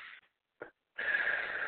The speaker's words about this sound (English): Okay, one more breath in. We're going to take another breath in and out